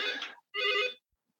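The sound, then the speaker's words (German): A telephone rings in a meeting room: two bright, buzzing ring bursts separated by a short pause, then silence, with no talk. “hier klingelt gerade das Telefon, aber nicht für mich”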